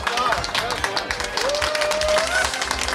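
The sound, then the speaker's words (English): People give a round of applause, many brisk overlapping claps, with a voice talking over the clapping throughout. “Hey, round of applause. Well done. Everybody.”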